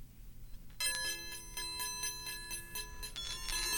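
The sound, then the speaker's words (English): Chinese Baoding iron balls chime as they roll, their hollow shells carrying inner sounding bells. After a brief quiet start, bright sustained metallic ringing tones set in with many quick, fairly regular pulses, and no voices. “Later, handicraftsmen began designing hollow balls and inserting sounding bells, I would assume.”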